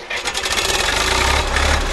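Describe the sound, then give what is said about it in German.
A red Zetor tractor engine starts with a sudden catch, then settles straight into a loud, rapid, steady pulsing with a deep low rumble underneath. “Ein roter Trecker, der sogar einen Namen trägt”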